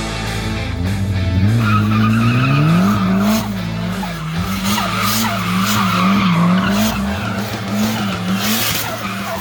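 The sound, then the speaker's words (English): Tires skidding on a boosted Nissan S13 hatchback with an SR20 engine swap, forged bottom end and 320 wheel horsepower on pump gas: a loud, continuous engine drone with wavering pitch under sustained tire squeal, with no talk. “Mike and his boosted S13 hatch with an SR20 swap. It's got a forged bottom end, 320 wheel horsepower on pump gas.”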